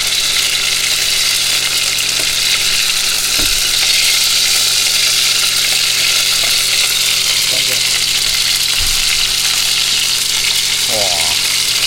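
Beef frying in a pan, ready to be flipped, gives a loud, steady sizzle that fills the whole stretch, with a few faint knocks underneath.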